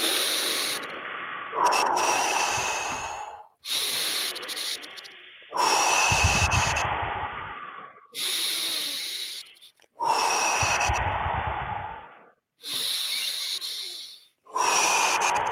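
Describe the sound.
Deep, slow breathing in and out during a guided breathing exercise: loud, airy inhales and exhales alternate steadily in a series of long breaths, each lasting a couple of seconds with short gaps between them, and no talking.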